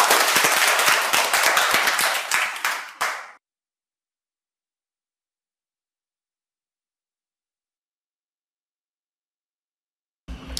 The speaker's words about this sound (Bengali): আবারও একটা জোড়া হাততালি সবার জন্য।